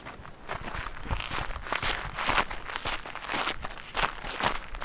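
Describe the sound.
Footsteps walk along a hiking trail over varying terrain. Many steady, rhythmic crunching steps continue without pause, with no talk.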